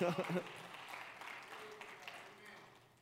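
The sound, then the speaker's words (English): Applause and cheering from an audience at a Christian sermon, a fairly faint, steady wash of clapping that follows a brief voice at the very start. “You just cheered really loud, and I appreciate that.”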